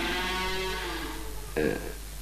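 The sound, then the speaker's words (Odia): Bullocks being fed straw: a low, drawn-out moo, followed by a short noisy burst. “ମୁଁ ଯାଏ ବଳଦ ମାନଙ୍କୁ ପାଳ ମୁଠି ଦେଇଦିଏ।”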